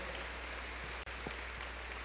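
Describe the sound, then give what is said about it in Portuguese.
Parish members give a round of applause for a member's birthday: a soft, continuous patter of many hands over a low steady hum, with one momentary dropout midway. “Uma salva de palmas aniversariante, Conceição.”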